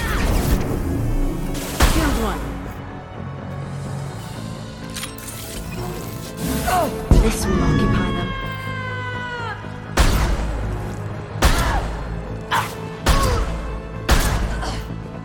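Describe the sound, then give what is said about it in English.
Sniper rifle shots in a video game: several sharp, loud cracks land at irregular intervals over a continuous game soundscape, with a brief whistling, falling tone in the middle. “This is not a powerful sniper rifle. You have to do several shots.”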